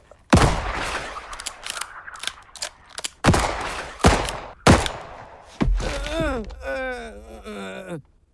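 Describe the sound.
Gunshots in an audio drama crack out loudly in a few sharp, widely spaced blasts with quieter thuds between them, followed by a drawn-out pained groan from a voice.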